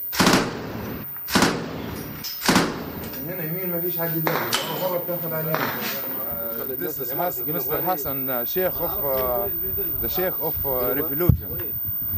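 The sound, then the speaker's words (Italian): Gunfire from snipers at a battle front: a few sharp, loud shots at the start, then voices calling over continuing noise. “Poi Walid ordina di sparare”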